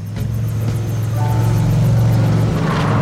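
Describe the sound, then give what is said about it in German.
A quad bike drives slowly across a gorge, its engine a steady low drone with a deep hum, holding a constant, fairly loud level throughout. “Vorsichtig lenkte Ryder sein Quad auf die andere Seite der Schlucht und drehte sich dann zu Tracker um.”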